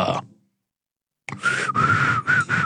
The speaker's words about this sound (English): Let's try to whistle.